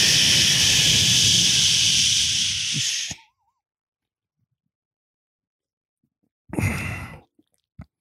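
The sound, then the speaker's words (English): A Busch Light beer can being cracked open: a long, loud, breathy hiss lasting about three seconds, then silence, followed by a shorter hissing burst and a faint click at the end. “let's crack a Busch Light and keep going”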